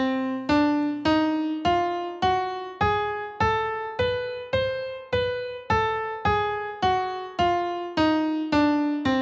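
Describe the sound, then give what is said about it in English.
A whole-half octatonic scale is played as a string of evenly spaced, separately struck notes, each decaying before the next. The notes climb step by step and then descend again in a steady, moderate rhythm. “So the whole half octatonic scale sounds like this.”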